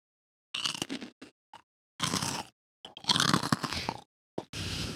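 Someone chewing gummy worms: wet, sticky mastication in irregular bursts, fairly loud, with short silent gaps between the bites and chews.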